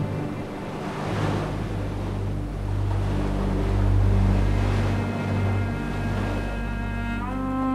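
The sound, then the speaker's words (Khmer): Sea waves crash against a mountainous island with a dense, continuous roar of surf that swells and eases, joined by sustained tonal music. “សមុទ្រទឹករលកបក់បោកមកភ្នំកោះ”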